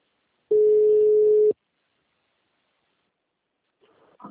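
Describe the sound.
Ringback tone on an outgoing telephone call, a single steady electronic tone lasting about a second, clear and loud, followed by silence.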